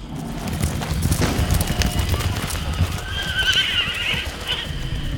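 Horses galloping at speed, with many rapid hoofbeats drumming steadily throughout, and a high whinny rising over the hooves near the end.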